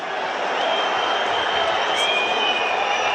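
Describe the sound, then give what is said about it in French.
A rugby stadium crowd rumbles in disapproval, a dense, continuous roar with no breaks, with a commentator talking over it. “Avec le public qui gronde.”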